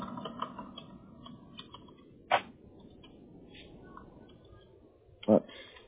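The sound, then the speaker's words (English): Typing on a computer keyboard, with soft, scattered keystrokes and two louder key hits, under faint talk. “Oops. I need to type it correctly.”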